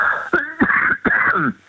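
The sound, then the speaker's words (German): A few harsh, throaty coughs mixed with throat clearing, voiced and rasping, coming in quick succession with short gaps between the bursts. “Das ist mein Husten, wie gesagt.”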